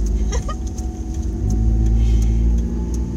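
A car engine rumbles low and steadily while the car is being driven. The drone stays fairly even, with a few faint clicks and no talk.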